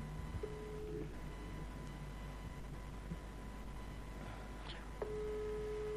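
Ringback tone on an outgoing phone call placed live to a mayor in Fontana: two steady low beeps roughly four seconds apart, heard over a constant background hiss.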